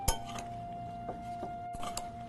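A utensil clinks against a bowl as apples are mixed, giving a few light, bright taps over a steady faint background hum.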